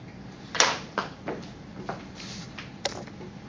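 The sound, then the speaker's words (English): A door swinging open on its hinges gives a few faint knocks and rattles, soft thuds spaced irregularly over a few seconds. “So here I have a door that could either be like this or it could swing that way.”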